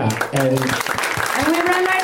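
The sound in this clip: Audience applause at a comedy show, a short burst of scattered clapping from the crowd heard under people talking.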